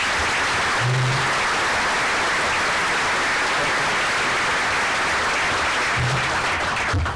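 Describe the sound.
An audience at the Detroit Economic Club welcomes a speaker with dense, steady applause that stays loud and even throughout.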